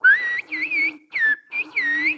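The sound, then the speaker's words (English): Whistled Turkish, a whistle language rendering a short spoken phrase: several loud, high, sliding whistle bursts separated by brief pauses, each rising and dipping in pitch like speech intonation, with no voices. “Which in whistled Turkish would be, I could say, the Black Sea is beautiful.”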